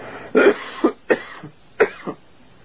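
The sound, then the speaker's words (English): A lingering cough that has persisted for months: a few dry, hacking coughs in short bursts, some followed by softer throat-clearing sounds, with no talk. “this cough simply will not quit, will it?”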